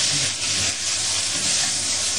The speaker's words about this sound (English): And the vegetable has to fry a little bit so that it dry up first, a little bit.